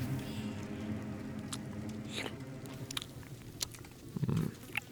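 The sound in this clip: Someone chews and eats a mushroom, with soft wet mastication and a few sharper crunching bites scattered through the steady chewing, one louder bite near the end.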